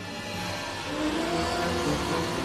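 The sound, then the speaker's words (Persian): A garbage truck approaches with a low, steady engine rumble under a broad noisy hiss, growing slightly louder partway through. “من صدای ماشین زباله رو میشنوم. داره نزدیکتر میشه.”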